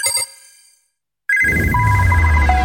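A studio telephone rings with a loud, steady electronic ringtone that starts after a short silence and carries on to the end.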